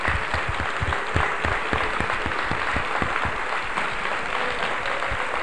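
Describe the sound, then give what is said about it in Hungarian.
A church audience applauds in praise of God, a steady wash of clapping with distinct rhythmic beats through the first few seconds that then blend into an even patter. “Let's give a big hand to our Heavenly Father. Tapsoljuk a mi Istenünket!”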